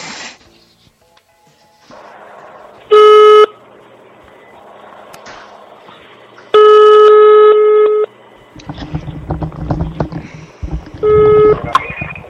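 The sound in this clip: Telephone ringing tone while placing a call: three bursts of a bright, steady electronic tone, the middle one longest, separated by quieter stretches with rustling noise and a rougher, louder patch near the end.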